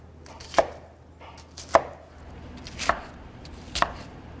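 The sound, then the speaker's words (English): A knife chops onions in four distinct, crisp strikes about a second apart, above a faint steady background hum, with no talking. “Next, we're gonna chop up some onions.”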